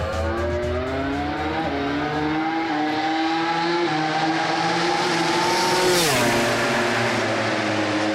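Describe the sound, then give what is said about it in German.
Full-throttle engine roar from a converted two-seater KTM MotoGP race motorcycle with over 300 hp, on a racetrack. The loud, sustained howl climbs steadily in pitch, then drops sharply near the end before pulling on again. “er ist mit einer umgebauten KTM MotoGP-Rennmaschine bei Jonas Folger mitgefahren. Eine Doppelsitzermaschine, über 300 PS und das Vollgas am Ring.”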